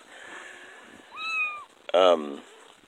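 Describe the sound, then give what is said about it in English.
Kittens meow while nursing, one upset at not getting milk: a thin, wavering mew, then a short pause and a louder, harsher cry near the end, over soft background noise. “Like these kittens underneath me right now. Looks like one of them's upset that he's not getting any milk right now.”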